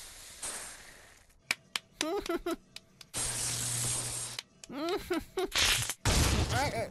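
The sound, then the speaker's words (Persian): A soda bottle opened, its fizzy drink spraying out in a few loud hissing gushes, with people talking in between the bursts. “این که در نوشابه خورد به پیشونی ما خیسم کرد”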